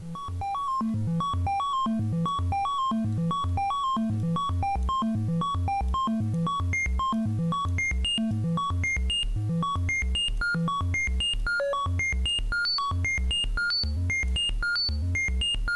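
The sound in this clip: A modular synthesizer sequencer controls pitch, advancing one step on each clock pulse through an eight-step pattern. It produces a steady, repeating run of short, evenly spaced electronic notes at a moderate, even level, with no talking.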